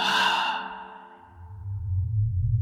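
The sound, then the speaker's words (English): A voice imitates someone breathing out: one long, breathy sigh that fades away over about a second, followed by a low, steady rumble. “right next to my ear, I hear someone just breathe out like,”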